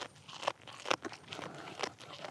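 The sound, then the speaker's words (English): Goats chewing needles and branches of a blue spruce Christmas tree give faint, irregular crunches and snaps, a few sharper bites standing out over soft, continuous munching. “Turns out goats relish juicy pine needles and tender branches.”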